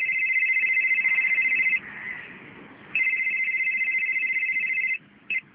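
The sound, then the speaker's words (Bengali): A phone rings with an early-morning call that wakes a sleeper: two long, steady warbling bursts separated by a short pause, then a brief chirp at the end, loud and clear with no voices. “ভোরবেলা ঘুম ভাঙে constable রমজানের phone দিয়ে।”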